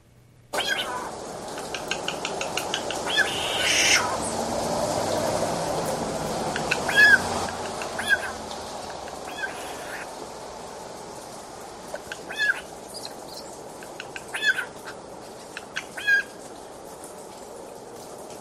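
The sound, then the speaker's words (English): A bird clacking its beak: a few sharp, dry clicks in short irregular clusters over a steady, noisy background. “I'll play it just one more time. I think it was clacking its beak.”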